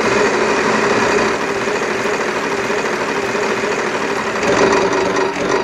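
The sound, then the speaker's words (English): Spinning prize wheel sound effect played for a charity prize drawing: a loud, dense, continuous mechanical whirring rattle that holds steady throughout and swells slightly near the end, with no talking. “Let's go ahead and give it a spin to see who won that. Spin noise.”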